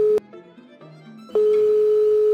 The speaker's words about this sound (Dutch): ik heb hem even gebeld om te vragen hoe het dan wel zit.